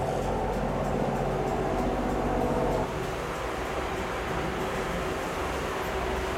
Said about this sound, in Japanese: さあいよいよ出発です。船が動き始めましたよ。